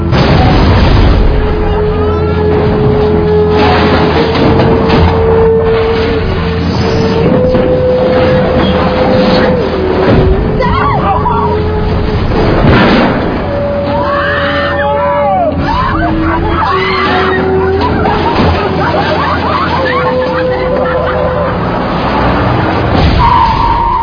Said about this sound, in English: Worst place to get a flat,